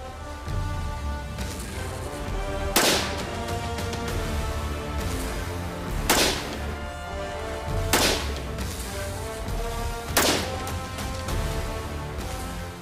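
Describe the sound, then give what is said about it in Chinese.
Unsuppressed gunshots from a rifle fire as a few sharp, loud cracks spaced seconds apart, standing out over a continuous tonal background. “所以我们先在不安消音器的情况下进行射击。”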